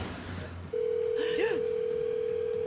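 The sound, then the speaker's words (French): A telephone tone sounds as a number is dialed. A steady, mid-pitched continuous tone begins after a moment and holds to the end, with a brief warbling chirp over it. “composez le numéro de téléphone.”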